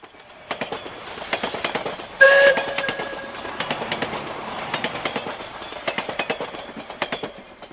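A passenger train from Kyiv pulling into Moscow, its wheels clattering in a steady clickety-clack rhythm, with one short horn blast early on and no voices.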